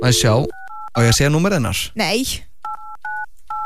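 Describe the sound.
Touch-tone telephone dialing as a call is placed: several short, clear keypad beeps, some close together, broken up by loud talking between them.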